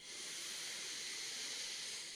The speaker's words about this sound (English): So full breath in through the nose.